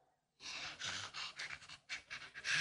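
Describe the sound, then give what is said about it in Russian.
Heavy, quick panting from someone crawling on their belly: a quiet run of several rough, breathy puffs in an uneven rhythm. “Только дыши не так громко.”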